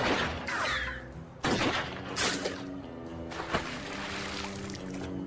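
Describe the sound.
Gunfire during an escape scene near a yacht: a few sharp, loud shots crack at irregular intervals over a steady rushing background.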